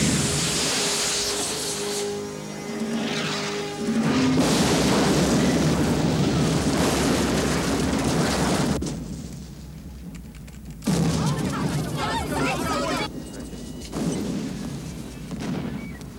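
Heavy gunfire erupts after the order to fire in a 1997 action film scene, with loud, dense volleys of shots rolling on for many seconds and brief lulls between bursts.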